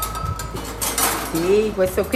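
Cooking utensils, pots and pans clink and clatter in a restaurant kitchen in the small town of Tarquinia, north of Rome. The light metallic knocks are irregular and scattered throughout.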